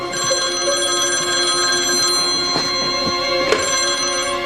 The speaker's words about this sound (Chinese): 对不起啊，我接个电话。